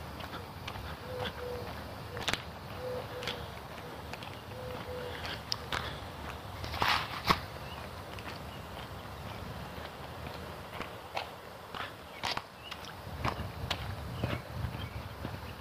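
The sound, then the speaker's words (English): Footsteps pound on a treadmill running at 3.5 miles an hour, a steady series of soft thumps over a continuous low, broad hum, with no talk. “I have the treadmill cranked up to”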